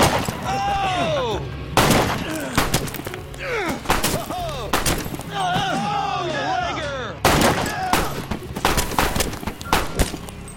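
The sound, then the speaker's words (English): Several gunshots fired at a man scrambling for cover in shrubs, sharp loud cracks spaced irregularly throughout, with voices calling out between the shots. “Ludlow scrambles for the cover of shrubs as Santos and DeMille take pot shots at him.”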